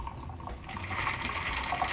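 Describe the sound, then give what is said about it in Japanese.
A Sidecar cocktail is poured from a shaker into a cocktail glass, a steady, continuous splashing trickle of liquid that holds an even level from start to finish, with no voices. “注いでいきますはいお待たせいたしましたサイドカーでございます”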